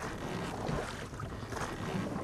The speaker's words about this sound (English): We've been rowing a steady 30 miles a day now for 2 weeks. The river's as broad as an ocean and lonely.